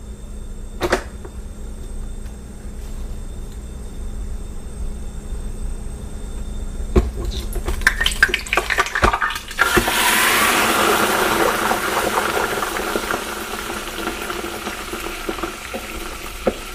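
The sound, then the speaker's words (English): Frozen fries go straight from the freezer into hot oil. A few scattered clicks come first, then a loud, steady, hissing sizzle bursts in partway through and continues to the end. “you'll get a little more of the frying sound, because these fries are coming straight from the freezer right into the hot oil.”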